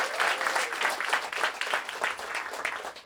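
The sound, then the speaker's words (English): Concert audience cheering and applauding for two producers introduced on stage, dense clapping mixed with shouts, moderately loud and sustained, rising and falling slightly. “so make some more noise for those two guys.”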